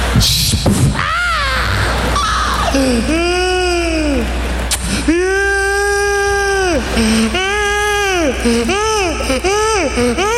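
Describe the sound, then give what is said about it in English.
A voice imitates a child crying, producing a string of loud, drawn-out, wavering wails and sobs in several separate bursts, each rising and falling in pitch. “Why do kids move so slow when they be crying? Stop making all that noise.”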